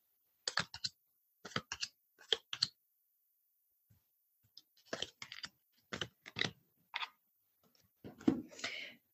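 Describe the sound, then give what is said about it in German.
Tarot cards are laid out on a table after shuffling, heard as several quick clusters of soft taps and flicks separated by short pauses. “So, nachdem ich gemischt habe, lege ich natürlich aus.”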